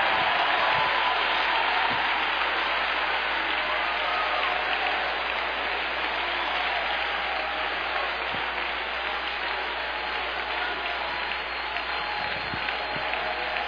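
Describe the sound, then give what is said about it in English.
Worshippers at a church service applaud, a dense, even clatter of many hands clapping that holds at a steady volume throughout. “Come on, put your hands together. Shout a little bit tonight.”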